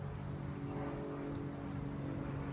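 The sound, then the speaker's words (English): An airplane flies overhead as a steady, low droning hum that holds an even loudness throughout, with no voices. “I just think it's airplane day. This has to be like the 15th airplane in 15 minutes.”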